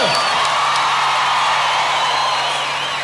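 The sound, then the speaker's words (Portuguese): Audience clapping and cheering blend into a steady, full roar of crowd noise, with whoops and raised voices riding over the dense clapping at a constant level. “Nós batemos palmas para vocês.”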